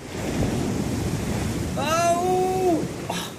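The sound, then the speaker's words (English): Sea waves and wind roar around a sailing boat in a continuous rushing wash that swells toward the middle as a big wave hits, with a voice crying out over the surge. “And oh, watch out for that big wave!”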